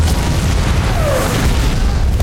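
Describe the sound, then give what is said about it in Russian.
Shell bursts explode in a fortress as a deep, continuous booming rumble, heavy and low, with no clearly separate blasts. “Дым от разрывов заволакивает крепость.”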